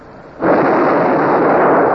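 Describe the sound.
A ship's cannon fires during a naval battle while the vessel is aground. A loud, heavy booming roar starts abruptly and holds steady and broad to the end, with no speech.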